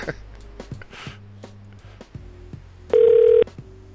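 A telephone is dialed to call someone back, with one loud, steady keypad tone lasting about half a second among fainter electronic tones and clicks.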